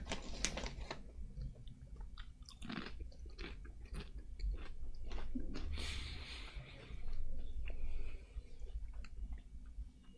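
Crunchy chewing of a braised pork rice flavored potato chip: many quick, crisp bites and munches in an irregular rhythm, fairly faint, with no talk.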